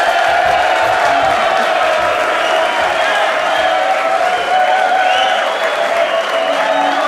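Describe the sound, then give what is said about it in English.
A live studio audience at Oral Roberts University in Tulsa, Oklahoma gives a standing ovation: loud, continuous applause mixed with cheering and whoops, sustained at an even level throughout. “Thank you very much for that standing ovation. Did you see the standing ovation?”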